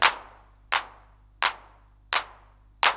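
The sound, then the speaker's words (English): Five hand-clap hits from a reference drum machine, evenly spaced crisp noise bursts with short decays, the first a little louder than the rest. “Now for the hand clap, here's the reference machine.”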